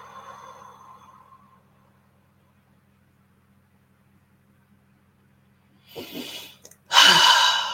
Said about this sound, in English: Let's do one more big inhale through the nose. And exhale through your mouth.